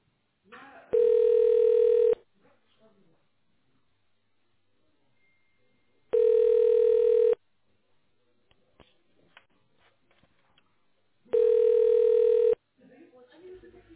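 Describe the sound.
A telephone ringback tone plays while a call is transferred: three steady one-second beeps at even, widely spaced intervals, with faint voices and rustles in the quiet gaps.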